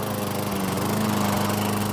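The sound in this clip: A lawn mower runs continuously with a steady, loud engine drone and buzzing harmonics that hold an even level throughout.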